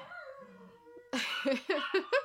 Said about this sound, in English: the dogs are helping because they're just, you know, really supplying a soundtrack.